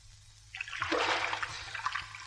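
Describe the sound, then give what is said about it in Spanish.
A swimmer dives into an indoor pool with a sudden loud splash, followed by continuous churning and splashing water as they swim across to the far side. “el guapo está nadando en una piscina cubierta. Se lanza al agua y cruza la piscina hasta el lado contrario.”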